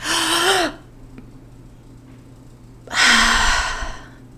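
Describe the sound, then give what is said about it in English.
Deep breaths taken during a sermon: two loud, drawn-out breathy exhales with a voiced, sigh-like edge, separated by a quiet pause of about two seconds. “Let's all take a deep, deep, deep, deep breath.”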